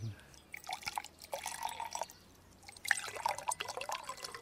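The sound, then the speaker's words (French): Wine poured from a bottle gives a faint, uneven trickle of liquid with scattered drips and small splashes running through the whole stretch. “Ouvrons une bonne bouteille de vin et parlons de choses sérieuses.”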